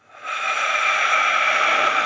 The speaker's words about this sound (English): Deep breath in. Deep breath out.